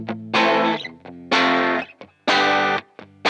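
Distorted electric guitar from a Danelectro Hawk played on its bridge pickup with the tone turned fully up: three loud, ringing chords, each held about half a second, separated by brief muted scratches and pick noises.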